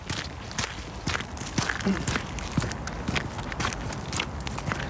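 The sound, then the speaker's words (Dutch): Footsteps walking along a path in a city park, a steady run of soft, scuffing footfalls with many crisp steps at an even, unhurried pace. “laten we een rondje gaan lopen”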